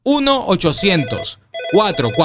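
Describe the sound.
A telephone rings after a number is dialed, with bright, buzzing rings that break off for a short pause and then resume, mixed with a voice talking.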